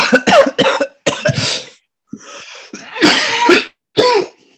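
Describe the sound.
Harsh coughing from someone who has just been smoking a joint comes as a rapid series of rough, throaty bursts separated by brief gaps. The coughs are loud and sound alone, with no speech over them.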